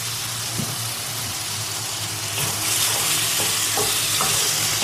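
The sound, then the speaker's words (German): Food sears in a hot frying pan with a steady hiss, while stirring adds a few soft scrapes and knocks. The sizzle grows louder about halfway through and carries on without voices. “Ich brate es noch ein bisschen scharfer an, wa?”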